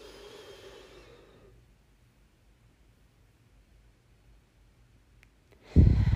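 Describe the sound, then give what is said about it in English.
A deep breath during a guided breathing exercise, in through the nose and out through the mouth: a soft, airy breath fades away over about a second and a half, then near silence follows until a sudden louder sound at the very end. “We're going to take a deep breath in through our nose, hold it at the top, and then let it out through our mouth.”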